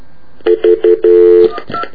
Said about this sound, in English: Now, I'm not sure. Do I have to dial an area code? Yeah, I'll try it.